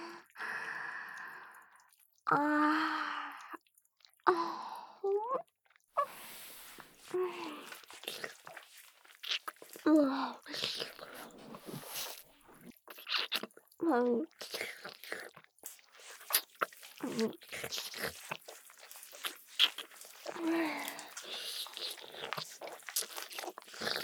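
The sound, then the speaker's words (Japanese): Wet licking sounds come as many irregular, close smacking and slurping bursts, mixed with soft breaths and moist mouth noises, varying in loudness throughout. “舐めてもいいですか？”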